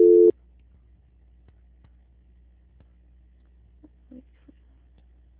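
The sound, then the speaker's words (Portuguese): One short, loud telephone tone opens a call transfer to a quality-control line. It is followed by near silence with a few faint clicks and blips on the held line. “Eu vou pedir para o senhor continuar em linha, não desligar, que eu irei transferir a sua ligação para o controle de qualidade”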